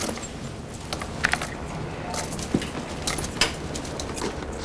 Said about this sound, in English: He hands her the handcuff keys.